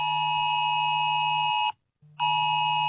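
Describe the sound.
A mobile phone emergency alert tone sounds as a loud, harsh, steady buzz made of several stacked pitches. It cuts out briefly for a short gap, then resumes at the same level.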